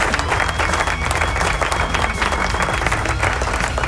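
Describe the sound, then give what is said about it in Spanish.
A crowd claps in steady, dense applause that holds at an even loudness for the whole stretch, made of many overlapping hand claps. “así que aplauso”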